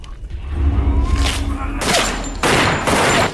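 Gunfire from two handguns and a pistol shooting at zombies: loud, dense bursts of shots in a few clustered volleys, with a quieter stretch before them and no talk over the shooting.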